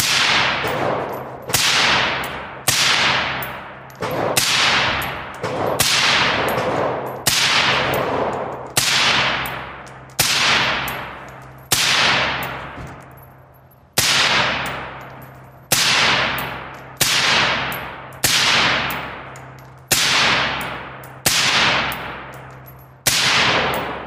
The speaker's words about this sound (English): Next, we're on to the Granite State Indoor Shooting Range in Hudson, New Hampshire. That's where Republican presidential hopeful Vivek Ramaswamy and his wife Apoorva met with voters and shot both pistols and long guns.